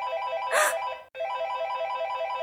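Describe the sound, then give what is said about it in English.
A telephone rings with a steady electronic tone that repeats in a fast, even pattern. The ring cuts out briefly partway through, and a short burst of noise is heard near the start. “I bet that phone's gonna ring real soon, dude.”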